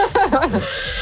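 Horse neighing, a short whinny of quavering, wavering tones that dip and rise over about a second, moderately loud and heard alone.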